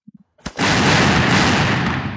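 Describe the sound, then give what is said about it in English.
Gunfire volley as soldiers fire at prisoners at close range: a few faint clicks, then a sharp blast that swells into a sustained, loud roar of dense noise lasting to the end. “On a given signal, Mexican soldiers fire at close range.”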